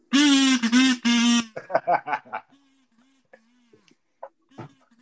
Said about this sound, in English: He can't dab, though, while he's playing the kazoo.